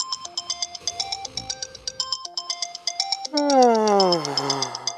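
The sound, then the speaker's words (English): A phone alarm rings in the morning, a bright repeating electronic ringtone of steady beeping notes in a looping melody, shifting near the end into a rising, warbling sweep of tones. “You wake up to your alarm ringing, you turn it off, and bring your phone back to bed with you.”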